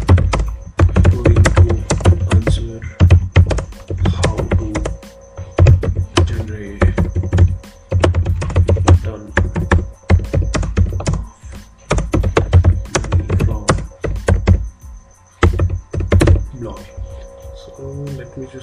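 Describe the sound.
Someone types an answer on a computer keyboard: many rapid, sharp key clicks come in dense bursts with short pauses between them, and the typing stays loud and busy throughout.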